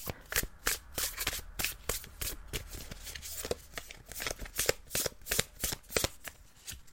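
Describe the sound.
Tarot cards are shuffled in many rapid, crisp papery snaps and riffles, a fairly even rhythm of sharp bursts that runs without pause at moderate loudness.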